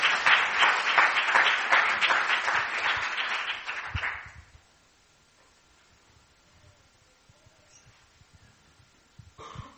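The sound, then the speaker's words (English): A gathering applauds to welcome a speaker: dense clapping for about four seconds, then it fades into near silence with faint scattered noises. “Let's give her a hand.”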